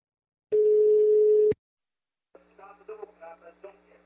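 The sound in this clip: A phone call being placed from a pharmacy: a single steady telephone tone lasting about a second, then after a short silence a muffled voice comes through the line over a low hum.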